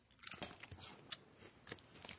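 Crunching bites of a cheese and lager flavoured potato chip: a run of crisp, crackly chews and snaps at an irregular rhythm, fairly quiet and without talk.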